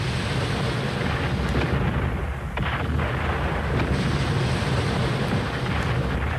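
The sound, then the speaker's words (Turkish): Cannon fire from a castle, a dense, continuous rumble of heavy booms that blend into a loud, steady roar through the whole stretch, with no clear gaps between blasts. “Kaleden atılır bu toplar.”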